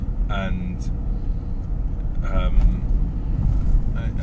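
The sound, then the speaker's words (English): Steady low car engine rumble while driving on a commute, with brief bits of a person talking over it. “There'll be engine noises.”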